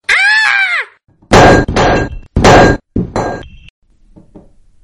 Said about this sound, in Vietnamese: Nương theo tiếng thét chói tai của cô ấy, còn có tiếng loảng xoảng của đồ vật.